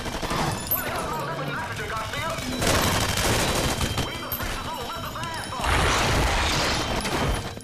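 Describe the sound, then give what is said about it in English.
Sustained gunfire as troops fire on a creature: dense, crackling bursts of rapid shots that swell into two louder volleys, with clattering impacts mixed through the din. “Harry, Rachel, and Colonel Douglas watch on a monitor as the troops open fire on the creature, which seems unbothered by the bullets.”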